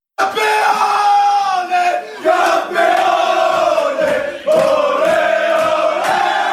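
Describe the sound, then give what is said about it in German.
Bayern Munich players celebrate their eighth straight Bundesliga title in the dressing room, loudly chanting and yelling together in three strong bursts, with group voices swelling and dipping between each. “Bei der Party danach in der Kabine war dann auch ein gewisser David Alaba federführend. Und da hören wir ganz kurz rein, wie sich das abgespielt hat.”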